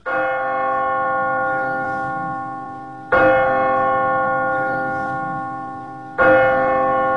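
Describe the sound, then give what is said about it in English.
Bell of St. Mark's church striking three times at slow, even intervals, each loud stroke blooming into a rich, humming tone that decays slowly before the next strike. “The bell of St. Mark's.”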